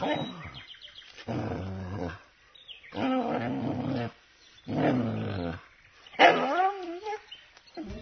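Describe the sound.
A dog barks in a few drawn-out, growling bursts separated by short pauses, each rough and mid-pitched, with no other voices alongside.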